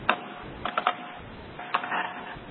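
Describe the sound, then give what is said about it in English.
Soft clicks of typing on a computer keyboard, a few scattered keystrokes in short bursts, faint and alone. “Well, I could just probably as equally as well type it in.”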